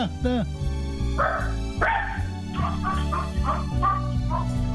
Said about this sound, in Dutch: de hond